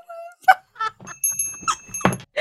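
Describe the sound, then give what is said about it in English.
Small ritual bells ring in brief, bright strikes with a sustained high shimmer, interspersed with scattered clatter and soft thumps. “Got to ring some bells in here.”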